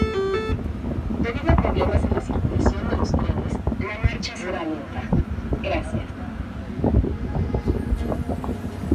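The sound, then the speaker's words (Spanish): A Mexico City metro train gives a steady, loud rumbling clatter throughout, with people talking over it. “Entonces ahí vamos de nuevo al metro. Como ya te dije, el metro es el medio de transporte más eficiente de la Ciudad de México cuando no falla.”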